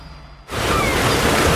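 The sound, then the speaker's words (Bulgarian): Sea waves on a beach produce a broad rushing surf noise that starts abruptly and then holds steady and fairly loud, with no voices. “Почивка, плаж, море, лятото зове.”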